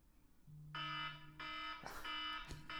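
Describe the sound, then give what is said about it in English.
A quiz-game buzzer sounds a few harsh, bright bursts in quick succession over a low steady hum, each burst short and strident. “the buzzer is mostly for Kayla and Dan, and it sounds like this.”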